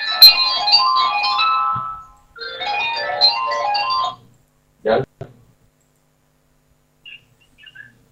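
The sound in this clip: An incoming call sets off a bright, chirpy melodic phone ringtone that plays two phrases with a short pause between them. A few faint clicks follow, then quiet.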